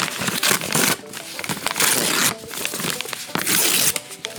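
A taped-up envelope is torn open at an awards show, with paper and tape ripping and crinkling in several irregular loud bursts.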